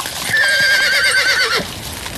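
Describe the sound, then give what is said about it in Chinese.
A carriage horse neighs as the carriage halts: one long, wavering whinny rises strongly, holds for over a second, then cuts off into quiet. No distinct hoofbeats follow. “马蹄声停了下来”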